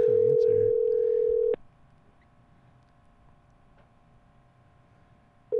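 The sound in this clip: Ringback tone of an outgoing phone call waiting to be answered: one long, steady, mid-pitched tone for about a second and a half, then a quiet pause, with the next tone just starting at the end.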